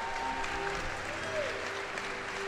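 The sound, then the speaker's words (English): Applause from an audience welcoming the mayor of New Haven: a steady, even wash of many hands clapping that holds at one level throughout, dense and continuous. “So if we could give Mayor Tony Harp a big welcome. Come on, put your hands together and honor her.”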